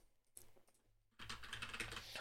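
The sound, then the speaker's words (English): Rapid typing on a computer keyboard: after a brief quiet start, a dense run of many quick plastic key clicks clatters on steadily and fairly loudly to the end. “Oh my God, I can't type.”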